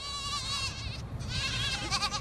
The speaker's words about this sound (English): It's the time of day the kids are reunited with their dairy goat mothers.